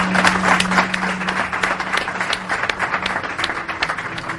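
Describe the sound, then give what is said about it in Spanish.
Audience applause greets a guest at a live event in Seville: dense, steady clapping that holds fairly loud from start to finish without a clear break. “Un aplauso.”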